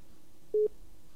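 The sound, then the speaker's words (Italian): A single brief busy-tone beep on a telephone line after a call dropped, one steady mid-pitched tone lasting a split second over faint line hiss. “Caduta. È caduta la linea.”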